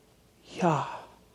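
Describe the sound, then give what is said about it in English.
A single breathy, voiced sigh made by a person to demonstrate the name Yahweh as the sound of a human breath. It is a soft exhale that swells briefly and then fades. “And it's been said and taught that Yahweh, I am that I am, Y-H-W-H, is actually the sound of a human breath.”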